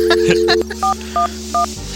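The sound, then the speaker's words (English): A touch-tone payphone dials an information number. A steady dial tone cuts off, then three short, evenly spaced keypad beeps follow, each one a clear, loud tone pair. “You dial 411.”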